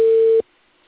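Telephone busy tone on an unanswered call: one steady, low-mid beep lasting about half a second, then silence.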